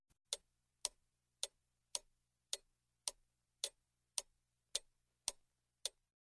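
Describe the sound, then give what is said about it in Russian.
A big clock ticks steadily: eleven sharp, evenly spaced ticks about half a second apart, with a faint low hum underneath. “Мышка подошла к большим часам, и они заиграли чуть-чуть громче.”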